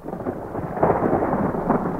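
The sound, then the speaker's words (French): Thunder from an approaching thunderstorm rolls as a low, continuous rumble that stays fairly steady throughout, with slight swells in the middle and near the end and no voices. “L'orage n'est pas loin.”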